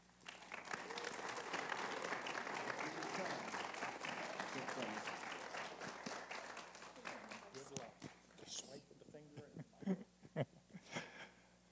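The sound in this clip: Church audience applause welcomes guest speakers: dense, steady clapping from a crowd holds for about eight seconds, then thins into scattered individual claps.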